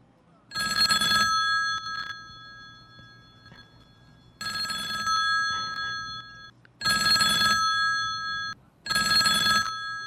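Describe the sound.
A telephone rings in four bright, electronic bursts with a steady, tonal pitch, loud and separated by pauses, with no talk over it.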